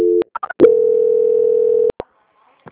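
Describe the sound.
Telephone line tones during a call transfer: a short steady tone, then a few quick chirpy beeps, then one long level tone lasting over a second that ends in a couple of sharp clicks.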